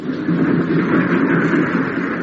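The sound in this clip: A train runs along the line with a steady, dense rumble and rattle that holds an even loudness throughout, with no voices.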